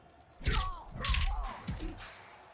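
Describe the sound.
Heavy hit impacts during a grab move in the fighting video game Mortal Kombat 11: three loud, booming thuds spaced roughly half a second apart, each with a short ringing tail.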